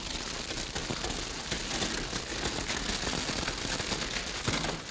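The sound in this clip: A grass fire burning during a sheriff's posse chase: a dense, unbroken roar of crackling and popping, steady and fairly loud from start to finish.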